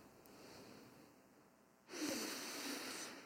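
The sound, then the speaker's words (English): Deep breathing during a calming exercise: a soft, airy breath sound that swells suddenly into a louder, rushing breath partway through and holds. No talking. “just start by taking three deep breaths.”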